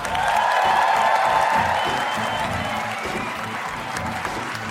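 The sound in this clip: A live audience at a stage show in Cambridge applauds as the hosts walk on. The clapping is dense and steady and carries on unbroken for several seconds with a constant crowd wash.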